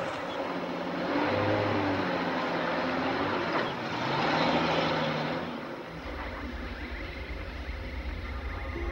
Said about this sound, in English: Their car disappears down behind the ridge where Jason still stands.